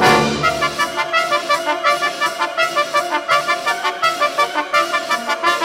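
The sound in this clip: Loud orchestral music heard on stage close to the trumpets and trombones: dense, sustained harmonies driven by a steady pulsing rhythm of many regular accents, with no voices.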